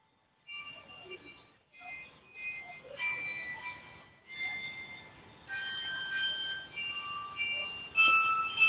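A slightly out-of-tune clock chime melody plays from a building in Hamamatsu, Japan. The high, bright tune has many notes and brief pauses, sounding quiet over a low background rumble.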